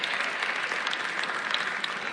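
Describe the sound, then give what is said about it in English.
A church audience claps during a sermon, a dense, continuous patter of many hands that keeps a fairly even level with small bright peaks throughout. “I know the claps are getting low because y'all are writing, but that's okay.”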